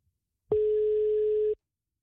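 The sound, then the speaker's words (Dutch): A single steady telephone tone as a call is placed. The tone is even and mid-pitched, lasts about one second, and then stops abruptly. There is silence before and after it. “Wij gaan weer eventjes bellen met Jan-Simon Minkema.”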